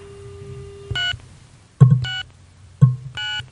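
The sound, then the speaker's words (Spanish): Telephone dual-tone keypad tones: three short electronic beeps separated by brief silences, the last two opening with a low thump. “Por eso se llama Dual Tone Multifrequency. ¿Escucha el tono marker?”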